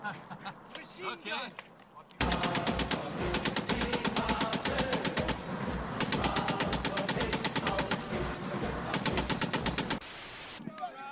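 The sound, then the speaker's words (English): Sustained machine gun fire: long, loud bursts of rapid, evenly spaced shots that run almost without break for about eight seconds before stopping abruptly. “No, it's a machine gun.”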